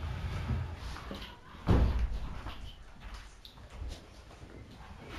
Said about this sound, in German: Können wir die Fenster kurz zumachen hier auf der Seite?